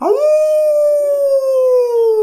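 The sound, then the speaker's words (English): A human voice imitates a wolf howl with one long, loud 'ooh' that sweeps up quickly at the start, then holds and slowly sinks in pitch for about two seconds. “Ooh, that was a good wolf howl.”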